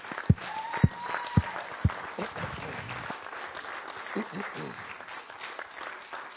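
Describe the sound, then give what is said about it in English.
Congregation at a church family conference clapping and cheering. Four sharp thumps open it, then a softer, spread-out patter of mixed clapping at moderate level. “Let's just clap and cheer.”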